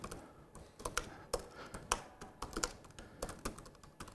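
Computer keyboard typing into a text document open in a web browser: many quick, sharp key clicks in an uneven rhythm, fairly quiet, with no voices.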